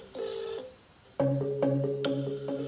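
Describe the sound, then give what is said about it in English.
A phone call ringing out unanswered, heard as an electronic melodic ring: a short tone burst, a brief pause, then a run of several bright, stepped notes. “Now, just time to ring the old girl and see what the crack is over there. Answer your phone, mate.”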